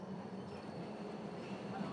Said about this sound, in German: Oh, jetzt kommt die Bahn.